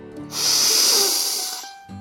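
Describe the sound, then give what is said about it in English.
A single deep breath taken slowly, a loud, airy hiss that swells, holds for over a second and then fades away. “Let's take a deep breath.”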